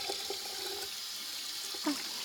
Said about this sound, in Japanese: 僕はこうやって手を水で濡らして、